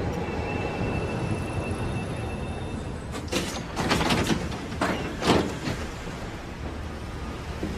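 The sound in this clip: Tram running on rails: a steady rumbling roll with a few louder clattering bursts in the middle, no voices.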